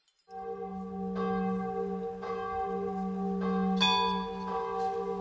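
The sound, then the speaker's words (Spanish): Church bells ringing at New Year, a sustained humming peal with several fresh strikes layered over the lingering tone, steady and fairly loud, without any talk. “La tradición de las campanas inclusive se da en nuestro Ecuador. Aquí se las toca 12 veces, una por cada mes del año.”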